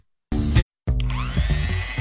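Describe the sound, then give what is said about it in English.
A new stand mixer whips cookie dough with a loud, drill-like motor whir: a short burst, a brief stop, then a longer steady run whose whine climbs in pitch. “You probably think that's the sound of a power drill, but it's a new stand mixer whipping up something even more powerful, cookies.”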